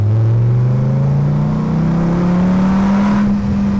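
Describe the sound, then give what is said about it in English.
A V10 engine's exhaust note as the car accelerates: a loud, steady, droning tone that climbs gradually in pitch, heard alone without voices. “I don't like the exhaust note on a V10 engine”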